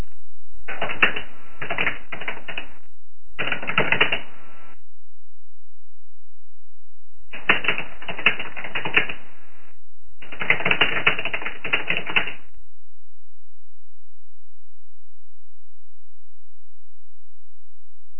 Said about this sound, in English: Okay, let me ask a question a different way. Let me type in another question.